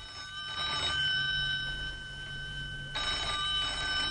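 A telephone bell rings in two long, bright, buzzing bursts separated by a quiet pause of about a second. A faint, steady high tone hangs underneath throughout, and no one speaks.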